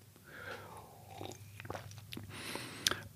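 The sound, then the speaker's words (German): Faint slurping and mouth noises from a sip of coffee, with a few soft clicks and crunchy smacks in a brief, quiet cluster and no talk. “Ich trinke einen Schluck Kaffee, um, um die Gefühle runterzuschlucken.”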